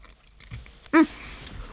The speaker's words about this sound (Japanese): ちょっと食べてみたいと思います。いただきます。